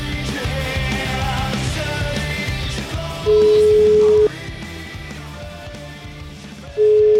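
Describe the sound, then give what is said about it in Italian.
A telephone call rings out as a steady ringback tone over background music, with one long tone and then a second tone starting near the end. “Voglio chiamare Vittorione.”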